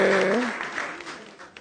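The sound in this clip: Audience applause welcomes a guest, a steady wash of many hands clapping that starts under a brief voice and then continues alone, slowly fading in loudness.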